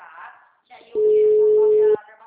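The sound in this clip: Phone ringing: a single steady, mid-pitched tone of about one second, heard clearly after a moment of low talk.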